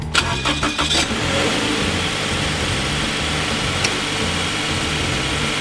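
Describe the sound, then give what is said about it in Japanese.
A car's DOHC double overhead cam engine cranks with a few quick pulses, catches, then runs on in a steady, even drone at a moderate level. “この車のエンジン、DOHC というエンジンなんですが、ダブルオーバーヘッドカムということで”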